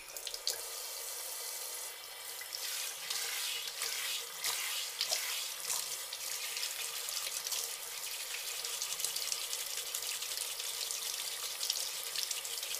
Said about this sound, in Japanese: よし！頭きれいきれいになったかな。流していこう。